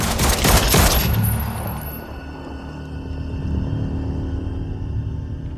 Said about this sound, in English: He puts the revolver back in his blazer pocket and pulls a pistol from his belt. He shoots the cop's head.